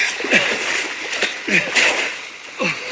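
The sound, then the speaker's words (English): Splashing and sloshing water as a man falls off his horse and rolls into a stream, with a few louder surges of splash and a voice heard among them. “He falls off his horse and rolls into a stream.”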